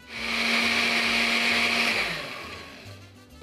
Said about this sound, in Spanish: A mí me gusta ponerle un toquecito de tequila, le da un sabor diferente a la nogada. Y vamos a poner un poco de leche para poder licuar bien todos nuestros ingredientes.